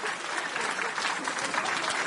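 Applause from an audience at a live event, a dense, even patter of many hands clapping at steady loudness throughout, with no voices.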